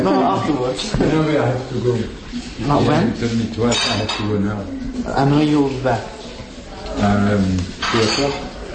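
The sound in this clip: Dishes and cutlery clatter in a kitchen at lunchtime, light clinks and knocks running beneath steady conversation from voices throughout.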